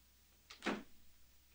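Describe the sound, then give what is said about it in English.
A bedroom door closing in a single brief burst, with a quick rise and fall in level and quiet stillness before and after. “He closes the door behind him.”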